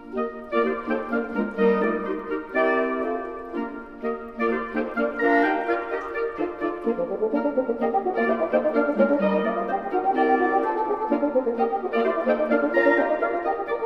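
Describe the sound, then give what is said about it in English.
The overture from Tchaikovsky's The Nutcracker, played by a Renaissance-style instrumental quintet from the Netherlands: bright, layered melodic lines move over a steady lower part in a lively, continuous ensemble passage. “That's the overture from Tchaikovsky's The Nutcracker.”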